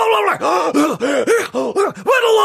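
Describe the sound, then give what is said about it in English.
A voice imitates a preacher's wild breathing while he yells and screams: a rapid series of loud, voiced gasps and groaning breaths with rising and falling pitch, each broken by brief pauses. “he kept making these wild breathing sounds as he was yelling and screaming”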